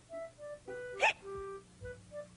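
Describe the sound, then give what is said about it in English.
A single quiet hiccup from someone trying to stop their hiccups, a sharp brief burst surrounded by faint tonal sounds. “do you really think that you can hold down my hiccups?”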